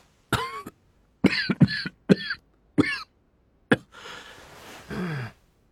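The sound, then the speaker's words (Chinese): A man coughing with the taste of blood in his throat: about six sharp, separate coughs in an uneven run, then rasping, breathy gasps to finish, with no talk. “咳了声，喉间有腥味儿。”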